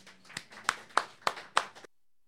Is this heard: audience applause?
yes